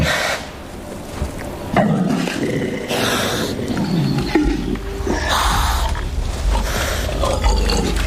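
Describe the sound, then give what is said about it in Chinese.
Two male wild boars fighting, with harsh roaring growls and grunts in loud overlapping bursts over continuous rough scuffling noise. “又一只雄性野猪前来，向刚才那只野猪发起挑战。双方势均力敌，谁都不肯退让。”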